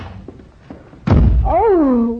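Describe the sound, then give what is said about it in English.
A door slams shut with one loud, heavy thud after a few faint taps. A voice speaks right after the slam. “must you slam the door, darling?”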